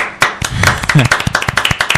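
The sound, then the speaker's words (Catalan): Audience clapping at a live Catalan show: sharp, distinct claps that settle into a quick, fairly even rhythm, with a voice talking over the first part. “Segon aplaudiment de la nit o què?”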